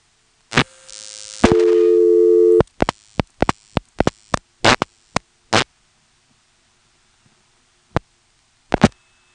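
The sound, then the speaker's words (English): Hang-up supervision signalling on a controlled analog telephone trunk during a test call. A short burst leads into a sustained buzzy tone of about a second, followed by many sharp clicking pulses that thin out and fall silent, heard alone. “as the supervision test progresses, you'll notice that every time it hangs up, we hear, chee-chee.”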